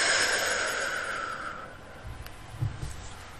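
A deep guided breath, in through the nose and out through the mouth: a soft, airy rush of breath fades away over about two seconds, then quiet, faint breathing follows.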